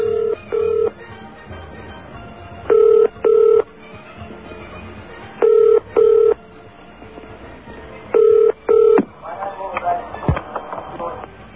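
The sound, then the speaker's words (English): Phone ringing on a call to an embassy in Canberra, Australia: four evenly spaced double-burst ring tones over a faint line hiss, followed by a short click and a muffled shift as the line answers. “And now listen to what happened when we tried calling the Iranian embassy in Canberra, Australia.”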